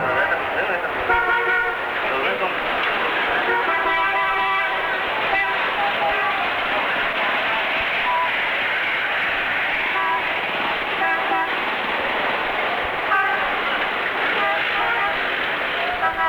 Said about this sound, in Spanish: oigan cuál es el ambiente de una calle cualquiera en una ciudad de China.